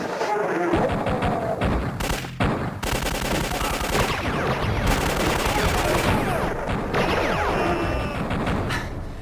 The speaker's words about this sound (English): I'm just going to shoot my way into chapter one. Here I go!